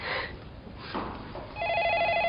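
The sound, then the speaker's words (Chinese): A telephone ringing with an incoming call. A steady electronic ring tone starts partway through, after a stretch of muffled noise, and holds to the end. “这时，许飞打来电话。”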